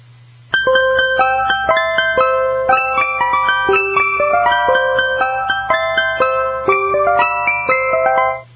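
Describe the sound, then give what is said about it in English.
An ice cream truck jingle plays as a bright electronic chime melody of quick, distinct notes. It is loud and continuous for about eight seconds, with no voices. “it's time now to reveal the top 10 truck ice cream songs.”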